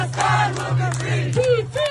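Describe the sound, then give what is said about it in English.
Protesters chanting together at a pro-Palestinian protest in New York City: a short, loud unison chant of several voices rising and falling over a low, steady hum. “Here's the sound of a protest in New York City.”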